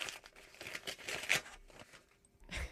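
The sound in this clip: A paper envelope is torn open, with crinkly ripping and rustling in several short bursts, fairly faint and without talking.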